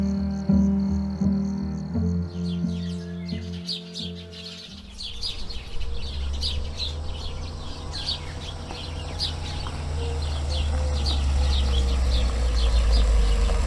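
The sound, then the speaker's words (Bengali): A police car drives into a house compound early in the morning, its engine rumble building steadily louder after a few seconds of steady tones, with birds chirping throughout. “অনেক সকালে বাড়িতে একটা পুলিশের গাড়ি এসে ঢোকে”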